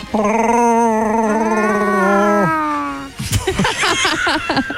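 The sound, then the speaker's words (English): A person imitates a Wookiee's growl: a loud, sustained, howling vocal roar lasts about two and a half seconds. After a short gap, choppy, broken vocal sounds follow. “Never tried to do your own Chewbacca sound? Can you do that?”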